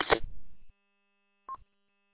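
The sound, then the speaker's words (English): Radio repeater tail after unkeying on a linked repeater: a short rough burst of noise, then after a pause of about a second a single brief beep as the courtesy tone. “when I unkey, it makes like a dial tone like sound, and then it has the courtesy tone, which is interesting. It's like it's getting two repeater tones.”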